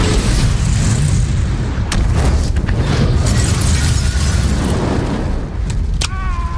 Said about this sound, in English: And then the boys almost get blown up.